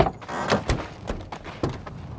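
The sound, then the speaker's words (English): Truck cab doors open as people climb out, giving a series of several sharp thumps and clunks of varying loudness. “We open the doors and Bael and I climb out of the cab.”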